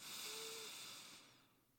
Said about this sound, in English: Now I want you to take a deep breath into your belly and feel the difference.